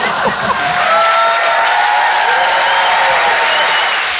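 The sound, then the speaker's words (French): An audience at a stand-up comedy show applauds loudly, with some cheering. The clapping rises quickly at the start, then holds as a thick, continuous roar. “Il y a des gens qui ont arrêté d'applaudir dès qu'ils ont vu ma tête.”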